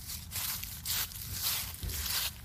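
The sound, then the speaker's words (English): Two people walk through woods, their footsteps making faint, rustling crunches in a loose, uneven rhythm of several steps. “How long have we been walking in these woods? I don't know. Just keep walking.”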